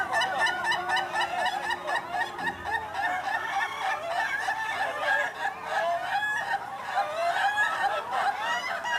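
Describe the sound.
A rooster gives a long, drawn-out laughing crow at a rooster-laughing competition: a loud, continuous run of rapid, rolling cackling notes that carries on without a break for about nine seconds.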